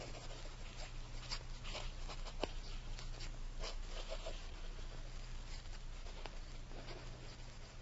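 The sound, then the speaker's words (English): Faint scratching of pencils on paper as two men write lists of names, a steady run of many short strokes over a low, constant hum. “We'll both write a list of 10 names. The first that appears on both lists shall be the third member of the committee. Start writing”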